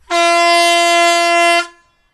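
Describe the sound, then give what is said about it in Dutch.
Vehicle horn sounding once in a single sustained, bright, brassy blast of about one and a half seconds, loud and steady, cutting off sharply with a short fading tail and no voices over it. “Maar speciaal voor deze ga ik even toeteren, jongens. Ja, doe even toeteren.”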